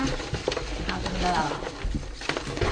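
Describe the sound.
Paper raffle tickets stirred and shuffled for a prize draw, a loose rustling and pattering of light taps under people talking.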